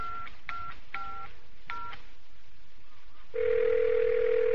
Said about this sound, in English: Damn, Thackeray's not at home either. I'd better call Don.